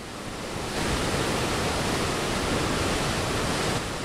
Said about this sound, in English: That's the sound of water rushing through the large arch-shaped openings in the dam.